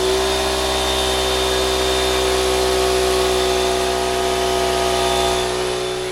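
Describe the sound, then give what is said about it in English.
A 1.5 horsepower, 6-gallon air compressor runs beneath a workbench. It gives a loud, unbroken motor drone with a steady whine, constant for the whole stretch and heard alone. “Now that would be my 1.5 horsepower, 6-gallon air compressor. A perfect tool to have in your garage.”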